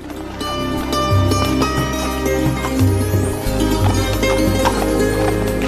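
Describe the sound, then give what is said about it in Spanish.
Clip-clop hoofbeats of a horse as its rider rides away, many quick hoof strikes in a steady running rhythm, loud and continuous. “montó en su caballo y regresó.”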